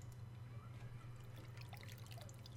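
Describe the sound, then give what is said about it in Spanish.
Running river water makes a faint, steady trickling and babbling with scattered droplet sounds over a low, constant hum. “Ahí va corriendo el agua.”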